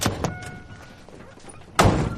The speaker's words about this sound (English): She gets out of the car, fuming.